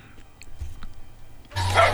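Dogs bark in a recording played back aloud. A few faint yips come first, then a louder, harsher burst of barking fills the final half second.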